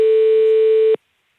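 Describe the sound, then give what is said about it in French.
A ringback tone plays while calling a company's landline: one steady, mid-pitched electronic tone holds for about a second, then cuts off into silence. “Donc ici, on appelle sur le numéro fixe de l'entreprise.”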